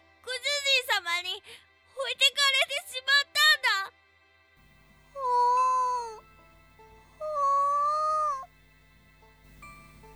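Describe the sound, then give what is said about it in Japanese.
A trembling cat crying: two quick runs of short, high, wavering mews, followed by two longer drawn-out cries over a faint low hum. “当せんぼ猫はブルブルと震え出して、 ふぅ と泣きました。”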